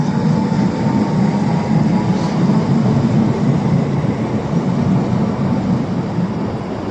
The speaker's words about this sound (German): Jetzt fährt die 11E nach Waren los.